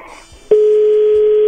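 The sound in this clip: Telephone line tone of an unanswered call going to voicemail: a soft, crackly start, then a sudden click and one steady, mid-pitched tone that holds unbroken and loud to the end.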